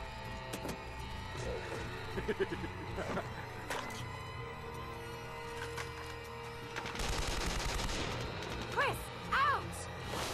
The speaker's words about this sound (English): Rocket launcher!